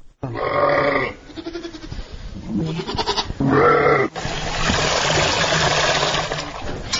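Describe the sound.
Goats and sheep bleat in a Kyrgyz village. Several loud, wavering, nasal cries overlap one another, and a broad rough noise fills the second half.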